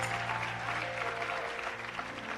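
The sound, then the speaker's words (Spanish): Applause from a church audience praising God: dense, steady clapping fills the whole stretch at an even, fairly loud level without pause. “Denle un aplauso al Señor. Denle un aplauso al Señor.”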